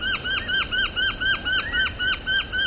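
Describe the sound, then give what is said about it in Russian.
Noisy miner calling in Sydney: a loud, harsh squawking note repeated many times in a steady, fast rhythm, each call a scratchy arching chirp, with no voices. “Вот черношапочную монорину мы запомнили довольно много, потому что это действительно noisy, действительно шумная птица.”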